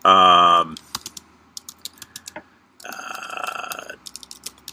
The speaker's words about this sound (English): Hold on a second. Let me type this in.